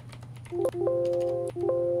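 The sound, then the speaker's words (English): Typing on a computer keyboard: a few soft key clicks sit over a steady electronic hum with sustained tones. “All right, so let's type in let's type in JPM coin retail.”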